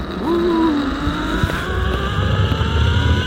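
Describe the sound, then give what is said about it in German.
A steady, loud whirring hum comes from a trolley running along a zipline cable more than 200 metres long, high above a reservoir at a climbing park. A tonal whine in the hum drifts slightly lower early on. “So klingt es, wenn man in luftiger Höhe an einem Seil über die Talsperre Pöhl flitzt.”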